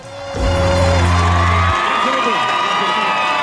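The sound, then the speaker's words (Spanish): Audience cheering and shouting as a crowd greets the arrival of a guest, a dense, loud roar of many voices that holds steady throughout, with a low sustained tone early on. “Y mirá cómo saluda el público, porque se viene la literatura”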